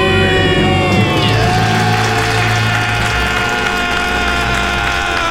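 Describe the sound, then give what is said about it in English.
Loud, sustained screaming and cheering from a family celebrating paying off their debt, with several overlapping voices forming a continuous high-energy roar that holds steady throughout. “Count it down. Let's hear a debt-free scream.”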